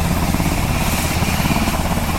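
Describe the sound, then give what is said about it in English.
An aircraft with tilting rotors takes off, giving a loud, continuous roar with a fast rhythmic rotor throb that holds steady throughout and no talk over it. “He's ready for takeoff. The crew chief is getting his gear up to get in the airplane.”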